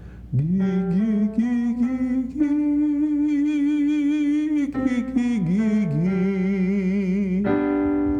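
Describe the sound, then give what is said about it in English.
A singer voices a five-note ascending vocal scale on the syllable "gi" starting from G3, stepping up to a long sustained top note with steady vibrato, then stepping back down. “exercise 1, a 5-tone upscale with gi and sustain the vibrato on the top and come back down again. Your starting pitch is the G3.”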